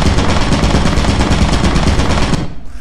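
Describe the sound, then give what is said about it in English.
Rapid, continuous turret gunfire in a video game: a loud, dense rattle of fast shots that runs without a break and cuts off abruptly near the end. “I don't know if you'll understand bullets or a turret, but there is a turret in there.”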